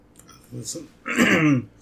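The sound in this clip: A person clears a dry throat with a short, rough rasp, preceded by a few faint mouth sounds.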